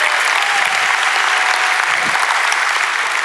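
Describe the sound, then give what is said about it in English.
Loud, dense applause from a church audience cheering for a pastor's wife. The clapping stays thick and even at full level for about three seconds. “Make some noise for the greatest wife in the world.”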